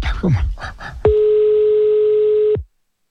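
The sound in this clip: Telephone dial tone while placing a call, a steady, unbroken single-pitch hum lasting about one and a half seconds after a brief stretch of talk, then cutting off abruptly.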